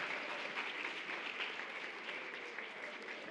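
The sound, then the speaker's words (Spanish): Audience applause for a young co-host at a children's radio program recording: dense, even clapping that runs steadily through the whole clip, with no voices over it. “aplauso enorme para nuestra querida Ari”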